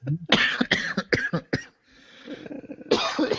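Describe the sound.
Coughing from someone who has inhaled some ice: a quick run of several harsh, loud coughs in close succession, a brief pause, then another forceful cough burst.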